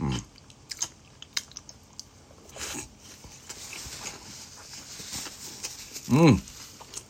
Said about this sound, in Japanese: もうちょい食べ終わるから食べてからするか。